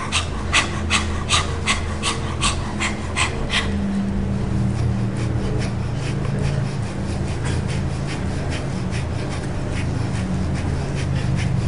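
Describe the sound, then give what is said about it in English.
Rapid yogic fire breath, panting in and out with the abdomen and tongue out: many quick, even, breathy puffs in a steady rhythm, continuing throughout with no talk. “and you can let your abdomen go in and out. You know, the yogis do that with the fire breath too, with the tongue out.”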